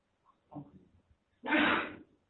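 A single person's sneeze during a religious lesson: a few soft, breathy intake sounds, a brief pause, then one loud, harsh burst that trails off after about half a second.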